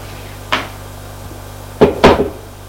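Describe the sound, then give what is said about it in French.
Knocking on a bedroom door: a few sharp wooden knocks, one on its own and then a quick cluster of two or three, each short and dry, with no voices. “Pour aller sonner, pour aller frapper à la chambre de sa mère.”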